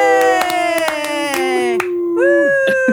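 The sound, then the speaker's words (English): Whooping, cheering voices with gliding, falling pitch, punctuated by a string of sharp hand claps; a second rising whoop enters toward the end. “Woo! That studio audience is going crazy.”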